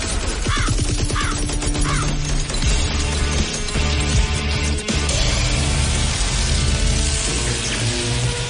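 Crows caw in a few harsh calls during the first two seconds, partly buried under a loud, dense, continuous background that runs the whole length.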